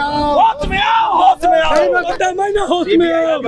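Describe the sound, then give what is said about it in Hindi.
Protesters chant slogans against the CBI over the land-for-jobs case involving RJD leaders, loud shouted voices rising and falling in rhythmic bursts, with a brief dip partway through. “यहाँ पर सीधी तस्वीर आप जो देख पा रहे हैं कि जिस तरह से नारेबाजी हो रहा है और लोगों का प्रदर्शन हो रहा है। देखिए सीबीआई होश में आओ के नारे लग रहे हैं”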